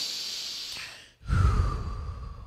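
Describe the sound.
Breathing during a calm, guided moment of rest: two soft, airy breaths, separated by a brief near-silent pause, the second fuller and lower with a sighing quality. No voices are heard.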